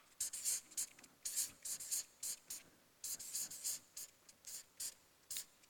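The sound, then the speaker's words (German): Pen scratching on paper during handwriting, many short, dry strokes in irregular quick bursts with brief pauses between them, faint and alone. “Also, ich schreibe so.”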